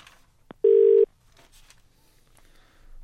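A telephone rings for an incoming call. A short steady electronic ring tone sounds alone against faint background noise, and the start of another ring follows after a pause.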